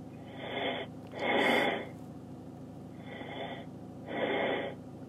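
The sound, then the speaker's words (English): Heavy, breathy inhales and exhales during a prayer session, four loud airy breaths in two slow in-and-out cycles over a constant low background hiss. “breathe in and out 5 times heavily”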